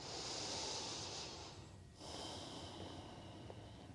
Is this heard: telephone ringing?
no

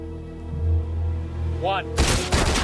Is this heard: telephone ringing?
no

